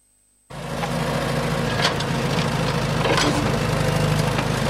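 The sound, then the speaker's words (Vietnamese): Heavy machinery drones on a construction site where trucks and excavators level ground for an industrial park and port. A steady, loud engine rumble starts abruptly after a moment of silence and continues without a break. “Hàng chục xe tải, xe xúc cùng nhiều thiết bị cơ giới liên tục san gạt mặt bằng, mở đường công vụ, phục vụ dự án.”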